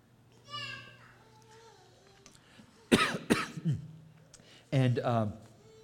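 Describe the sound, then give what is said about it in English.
Coughing from a tickle in the throat: a couple of short, sharp coughs break up stretches of talking, with voiced sounds before and after. “Excuse me, I've got a tickle in my throat here.”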